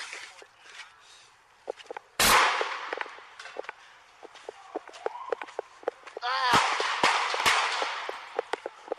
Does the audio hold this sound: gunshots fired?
yes